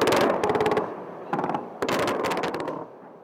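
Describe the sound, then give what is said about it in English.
Bombs falling on Baghdad in 2003, heard as dense crackling, gunfire-like bursts and blasts. The loud volleys come in several clusters separated by short lulls. “On March 20th, 2003, bombs fell on Baghdad”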